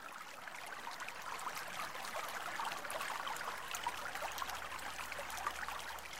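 A person urinating makes a faint, steady trickling stream of liquid that runs continuously for the whole stretch with little change in level, and no voices are heard over it.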